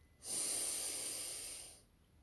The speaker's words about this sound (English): Take a deep breath